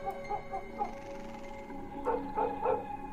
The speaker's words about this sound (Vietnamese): Con Mích đứng ở ngoài hiên, nó như cũng nhận biết tình thế nguy hiểm mà nó sủa lên ghê lắm, như điên như cuồng vậy.